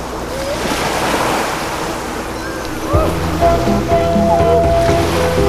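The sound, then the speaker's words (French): Ocean waves washing onto the beach at Grands Sables on Belle-Île-en-Mer make a steady, broad roar of surf mixed with wind noise, and a low droning tone joins partway through. “Pour descendre à la plage, nous passons sous un porche en pierre. Je vous laisse écouter le bruit de l'océan.”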